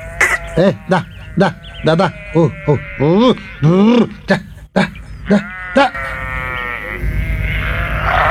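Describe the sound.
Goat bleating: many short, quavering bleats in quick succession, each wavering in pitch, fairly loud, followed by steadier background noise at the end.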